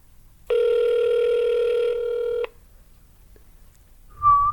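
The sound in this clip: A phone call's ringing tone played over a speakerphone: one long, steady, buzzy tone lasting about two seconds, then quiet, and a brief, faint tone near the end.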